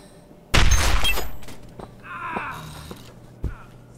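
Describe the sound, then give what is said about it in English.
A gunshot fired at a man's weapon, blasting it out of his hand: one sharp, loud crack with a long decaying tail, then fainter rattling and another dull thud near the end. “It's a tricky shot. Don't want to miss. Wait, you gonna shoot him? Just his weapon.”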